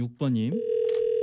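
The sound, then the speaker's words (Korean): Telephone tone on a radio host's outgoing call to a listener: after a short voiced sound at the start, a steady, unbroken mid-pitched tone holds at even loudness to the end. “전화 한번 드려볼게요.”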